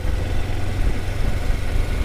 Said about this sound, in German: Dann steige ich auf den glühend heißen Sattel meiner Kawasaki und fahre in die Wälder des Nationalparks